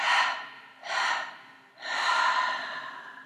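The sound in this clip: Deep breaths through the nose during a guided breathing exercise, three soft rushing breaths, the last one longest, separated by short pauses, with no talk.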